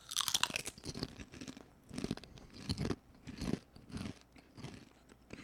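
Loud crisp crunching as Siete cinnamon churro strips are bitten and chewed, many bites in an uneven rhythm with short pauses between them and no talking.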